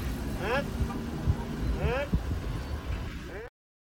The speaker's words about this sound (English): That was live footage of me driving off, trolling brother Brandon